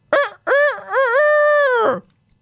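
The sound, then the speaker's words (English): A neighbor's rooster crows in a yard: a short opening note, a brief gap, then a long, loud, wavering, drawn-out call that ends sharply and is heard alone. “Just at that moment, the neighbor's rooster flew into the yard and began to crow.”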